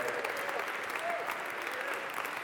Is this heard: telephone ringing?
no